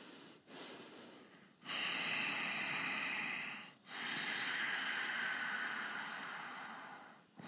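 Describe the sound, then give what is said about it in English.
A person breathes normally in a few long, airy, hissing breaths. Each breath is loud and sustained, with short gaps between them. “So if I breathe normally, it would sound like this. I don't know if you hear it. And just pay attention with your ears.”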